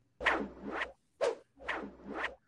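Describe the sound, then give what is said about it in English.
A swooshing, scratchy transition effect on a sports radio show sweeps through a few quick whooshes, with longer swells on either side of a short central burst and no talking. “Listen, our special effects crew decided that today for a big Monday show, we needed the full transition sounder.”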